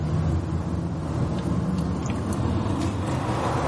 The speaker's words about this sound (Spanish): La conductora reanuda la marcha. Permanece atenta a la carretera.